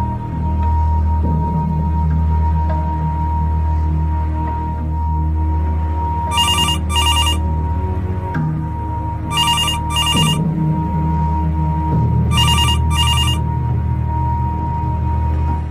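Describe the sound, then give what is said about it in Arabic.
A telephone ringing at a reception desk, heard as three evenly spaced rings, each a bright, high double trill. The rings sound over a continuous low droning background that persists throughout. “تليفون رن وردت عليه عادي”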